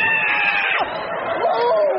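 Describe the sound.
A woman screams from a cramp in her legs: a high, sustained, wavering cry whose pitch slides downward midway and then climbs again, loud throughout.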